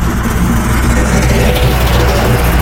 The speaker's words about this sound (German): Ja, also das ist der Schneepflug im Winter, wenn der Schnee schön auf die Seite geschoben wird.